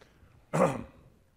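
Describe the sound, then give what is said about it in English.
A single brief throat clearing, one short gruff burst with no talk around it. “Got to clear the throat.”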